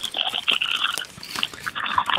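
Crunching and biting of curry flavoured crisps taken from a bag: many sharp, brittle crunches and chewing noises come in an irregular rhythm, fairly quiet and with no talking.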